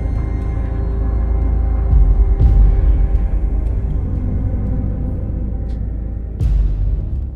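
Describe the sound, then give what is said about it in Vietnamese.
An old, battered rattletrap car drives along with a steady, low engine rumble and a few brief knocks and rattles. “Lúc này Mặc cùng với ông thầy viên lại tiếp tục bon bon trên con xe cà tàng cũ kỹ.”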